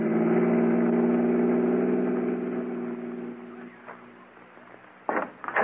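Car engine droning while driving, a steady mid-pitched hum that eases slightly after a few seconds, followed by brief louder bursts of noise near the end.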